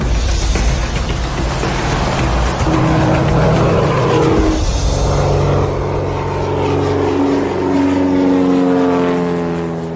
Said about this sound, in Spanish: Solo quiero que sepáis que el avión está rodando.